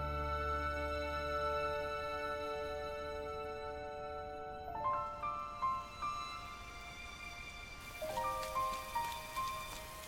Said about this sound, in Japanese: 雨だ。傘ないわよ。